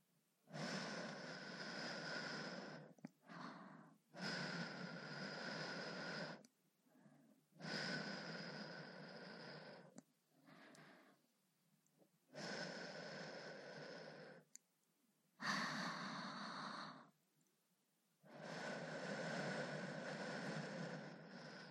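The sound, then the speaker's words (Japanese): Breath is blown onto something for ASMR in long, soft, airy exhalations lasting a few seconds each. Short pauses separate the main breaths, with fainter puffs between some of them. “最後にこちらも息を吹きかけておきましょ”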